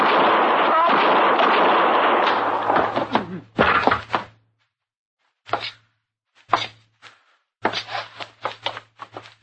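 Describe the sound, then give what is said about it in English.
Gunshots in a shootout: a dense, loud burst of noise at first, then several sharp, separate cracks at irregular intervals over a low steady hum. “Killed both of them, Mr. Dillon. I didn't even get a shot off.”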